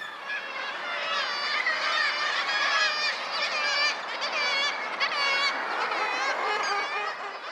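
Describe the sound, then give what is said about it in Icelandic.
Thousands of birds squawking in a breeding colony, a dense, continuous chorus of overlapping harsh, honking and cackling calls that stays loud and steady from start to finish. “Í skvaldri og gargi þúsunda fugla, sem ósjaldan nær 100 decibelum í hljóðstyrk, þurfa einstaklingar að tjá upplýsingar til maka eða forðris hver þau séu eða þeir séu alveg hræðilega svangir.”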